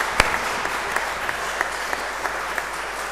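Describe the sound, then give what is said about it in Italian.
Audience applause at a cultural presentation honours two facilitators, a moderate, steady wash of clapping with several sharper individual claps standing out at intervals. “Io personalmente vi chiederei, se è possibile, di fare un applauso a Stefania e Tiziana, perché sono le animatrici di questo percorso.”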